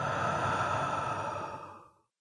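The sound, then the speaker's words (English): A deep breath is let out through the mouth in a guided breathing exercise, a steady, breathy whoosh that holds for nearly two seconds and then fades to silence. “Let's take a deep breath in through the nose and let it out through your mouth.”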